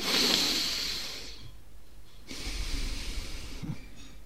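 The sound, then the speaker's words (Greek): Slow breathing in and out through the nose during a relaxation breathing exercise: a long, soft airy inhale, a pause, then a longer exhale, steady and moderate in level, with no talk. “Μπορούμε να μην ανοίξουμε και καθόλου το στόμα μας, να εισπνεύσουμε και να εκπνεύσουμε από τη μύτη δοκιμαστικά.”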